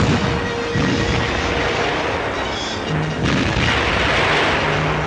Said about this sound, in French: S'enfonçant profondément dans Lofotenfjord, l'escadre ouvre le feu sur Narvik le 28 mai, après avoir auparavant nettoyé la place forte de Bjerrvik.